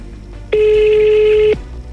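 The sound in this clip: A single telephone ring, a steady buzzy electronic tone lasting about one second, sounds on its own over a faint low background hum.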